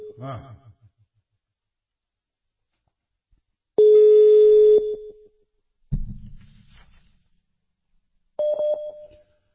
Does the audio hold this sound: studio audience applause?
no